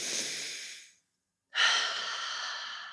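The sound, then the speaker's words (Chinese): A deep breath drawn in, then a long exhale: two broad, breathy rushes of air separated by a short silence, the second louder and sustained to the end. “我、哦、真的很需要这个大力的深呼吸，吐气一下。”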